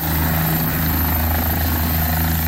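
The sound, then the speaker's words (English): Loud, steady helicopter rotor and engine drone as a province-contracted helicopter departs from a Dauphin pharmacy with prescriptions for flood-isolated areas. The throbbing, dense roar with low rumbling tones holds even throughout, with no voices. “Video posted by Dauphin Clinic Pharmacy of a helicopter departing with some of its out-of-town prescriptions”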